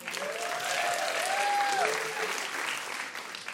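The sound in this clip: Audience applause for a performer on a live puzzle game show: steady, full clapping with a voice briefly speaking over it, fading slightly toward the end.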